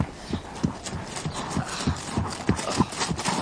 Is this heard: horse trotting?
yes